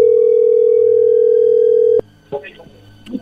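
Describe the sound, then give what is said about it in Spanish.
A telephone dial tone while a call is being redialed: a loud, steady single-pitched hum holds for about two seconds and cuts off abruptly, followed by a few faint clicks and short tones. “ya había colgado, ahí se está marcando de nuevo.”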